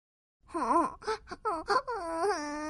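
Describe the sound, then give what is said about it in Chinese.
A young girl's voice wails and sobs: the cartoon spinach sister crying sadly, with a long quavering wail, a few short broken sobs, then a drawn-out moaning cry at the end. “咦，是谁在哭啊？ 哎，快看，是菠菜妹妹，她怎么了？ 菠菜妹妹，发生什么事了？你怎么哭得这么伤心啊？”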